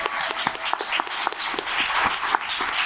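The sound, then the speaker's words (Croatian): Audience applause at a gathering in Vinkovci: a thick, even roll of many hands clapping, sustained and fairly loud throughout with no break. “Je tu, molim vas, ustanite se da i vi dobijete aplauz”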